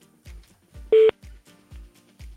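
One short, loud telephone keypad tone stands out among a few soft, low thuds that repeat at a regular pace.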